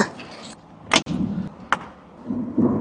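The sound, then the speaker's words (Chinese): A car door being opened so a lock can be fitted, heard as a few sharp clicks and knocks spaced apart over a low, steady background rumble. “要把车门打开，因为我们的锁要放进去。”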